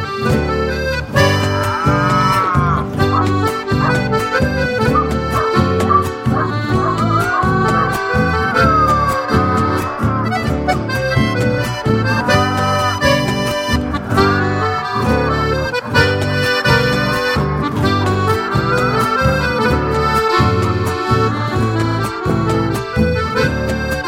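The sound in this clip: Cattle mooing as they are driven along by a herder: many loud, drawn-out, harmonic moos that overlap and repeat throughout.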